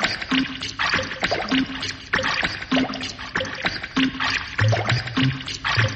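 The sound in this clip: Rhythmic water splashing from a BBC sound library recording: many sloshing strokes repeat at a steady, even pace, each paired with a short low hum.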